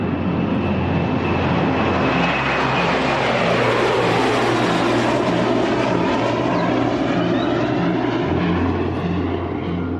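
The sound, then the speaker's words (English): A Royal New Zealand Air Force P-8 maritime patrol jet, the first of four replacing aging P-3 Orions, arrives with a loud, steady roar and droning engine tones that hold throughout, with no talk. “An early Christmas present for our Air Force today, the arrival of the first of four new jets set to take over surveillance and transport duties in the Pacific”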